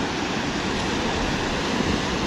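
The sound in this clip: Ocean waves washing onto the shore, a steady, dense rushing hiss that holds at an even level throughout with no separate breaks standing out.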